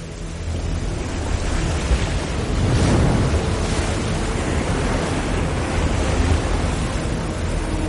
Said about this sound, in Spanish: El agua del río sobrepasa el puente. La riada inunda el pueblo.